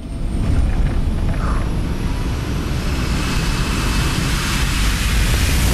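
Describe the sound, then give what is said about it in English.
A jet airliner's engines roar as it gathers speed for takeoff: a loud, dense, continuous rushing drone with a faint high whine layered over it, steady throughout with no voices. “As the jet picks up speed”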